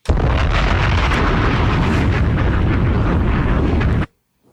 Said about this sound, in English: Bombs!